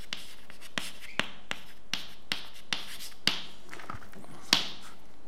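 Pen on paper writing out a circuit diagram: faint, soft scratching strokes punctuated by many sharp little taps, with no talk.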